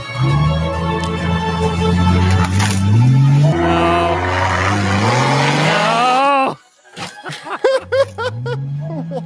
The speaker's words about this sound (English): we decided it was time for the big one, a downhill rollover crash test.